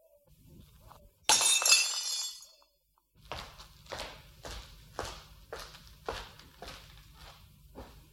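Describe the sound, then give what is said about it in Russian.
A wine glass is smashed after a toast, a single sharp shattering crash with bright tinkling shards. After a short silence comes a series of steady, evenly spaced footsteps. “Ну, знаете, разбить бокал. Какая нелепая выходка.”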